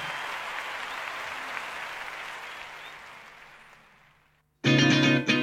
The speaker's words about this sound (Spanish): ¡Fuerte el aplauso!